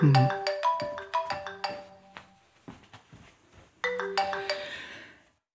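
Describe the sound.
A telephone ringtone plays as a bright electronic melody of quick tones, pauses briefly, then starts a second burst of the same tune that fades out.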